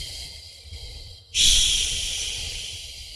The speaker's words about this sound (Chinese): 然后张开口，再进行缓慢的呼气，呼的时候越慢越好，长呼。